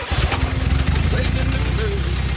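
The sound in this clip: A steady low engine rumble from an old car, long stored in a garage and restarted with a key, idling evenly and fairly loud throughout with a faint higher tone above it.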